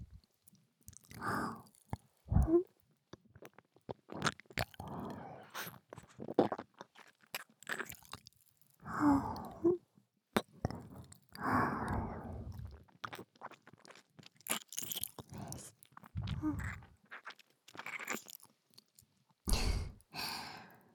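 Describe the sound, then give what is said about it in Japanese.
Crunching and chewing sounds of eating food come in many irregular bursts of varying loudness, with soft sighs and breaths between the bites. “ずっと食べたいって思ってました。”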